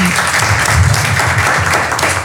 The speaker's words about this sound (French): Est-ce que nous pouvons encore applaudir pour cette demoiselle pour sa belle intervention?